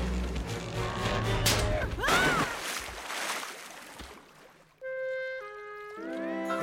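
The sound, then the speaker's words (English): Children swimming and splashing about in water: churning splashes and sloshes with a few sharper slaps, then sustained musical tones take over. “As the others happily swim and splash about, Littlefoot looks worried.”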